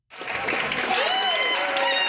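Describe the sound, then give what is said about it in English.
Families cheer and clap for arriving passengers of a Fly Dubai flight at Ben Gurion Airport in Tel Aviv. The loud, dense applause bursts in after a brief silence, and a high voice cries out above the crowd. “At Ben Gurion Airport in Tel Aviv, scenes of jubilation and relief. Families welcoming passengers from a Fly Dubai flight”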